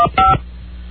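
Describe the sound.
Touch-tone keypad beeps as an extension is dialed: a short tone, then a longer, louder one. A low, quiet hiss follows.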